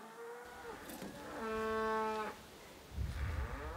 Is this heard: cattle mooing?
yes

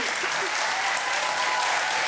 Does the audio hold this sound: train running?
no

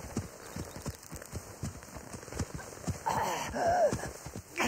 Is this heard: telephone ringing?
no

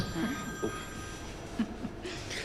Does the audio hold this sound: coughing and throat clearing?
no

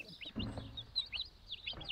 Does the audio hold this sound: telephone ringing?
no

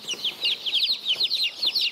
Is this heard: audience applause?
no

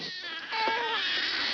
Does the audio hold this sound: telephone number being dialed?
no

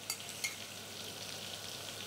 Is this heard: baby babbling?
no

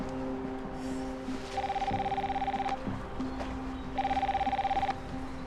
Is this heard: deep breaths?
no

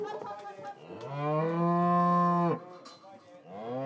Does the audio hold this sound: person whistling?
no

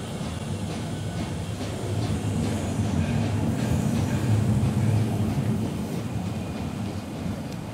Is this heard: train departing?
yes

